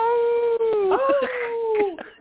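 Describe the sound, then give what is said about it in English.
A human voice imitating a wolf howling at the moon: one long, steady, tonal howl that wavers slightly in the middle and slides down in pitch at the end before cutting off. “I say, howl at the moon.”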